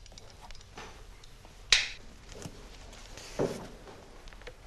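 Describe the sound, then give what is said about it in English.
A large bulldog clip is squeezed open and let snap closed in a classroom. Two separate sharp metallic clicks, the first crisp and louder, the second duller, stand out against a quiet background. “squeezing open a large bulldog clip and letting it snap closed”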